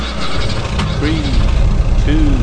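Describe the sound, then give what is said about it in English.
A race car engine in a racing video game rumbles at a steady idle, then revs twice, each rev climbing in pitch and easing back down. “Start your engine.”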